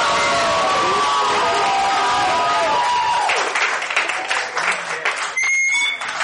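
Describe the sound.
Loud audience applause and cheering for a performing act, thick with shrill whistles and whoops at first, then thinning into scattered clapping and shouts.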